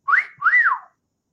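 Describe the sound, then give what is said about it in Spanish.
A human wolf whistle, the kind aimed at a girl: two clear whistled notes, the first sliding upward and the second rising then falling, heard alone with no talk. “¿cuál es el silbido universal cuando un hombre ve a una chica y le gusta?”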